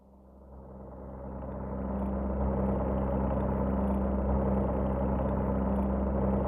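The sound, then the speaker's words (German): An aircraft engine running in flight on an ocean crossing drones steadily, swelling in loudness over the first two seconds and then holding a constant, low, throbbing hum with no voices. “Des Fliegers Gespräch mit seinem Motor.”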